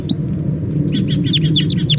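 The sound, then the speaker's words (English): Wild birds chirp in a quick run of many high, sharp tweets that fill the second half, over a steady low rumble that persists throughout. “And then the wild birds. Wild birds.”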